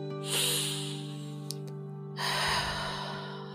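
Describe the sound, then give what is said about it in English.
A slow, deep breath: a hushed airy inhale through the nose, then a longer breathy exhale through the mouth, both soft and heard over a quiet, steady drone. “Take a deep breath with me now. In through your nose and out through your mouth.”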